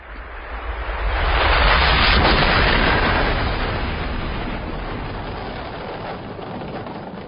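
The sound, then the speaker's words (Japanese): A massive explosion blasting the Central Alps gives a deep, broad roar that swells over the first couple of seconds, then eases into a long, steady rumble that fades slowly. “第3グループ中央アルプス爆破。”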